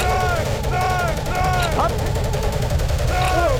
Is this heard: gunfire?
yes